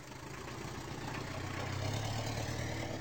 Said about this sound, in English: If you're wondering about the road noise in the background, Zephaniah is speaking while riding around West London in the back of a cab.